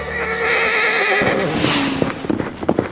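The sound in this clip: A horse gives a long, loud whinny, followed by a few quick hoofbeats as its rider rides off at speed.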